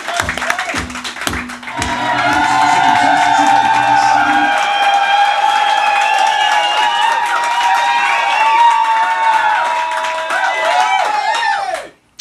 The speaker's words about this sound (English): Live at the Viper Room with a lovely bunch of punters in the audience.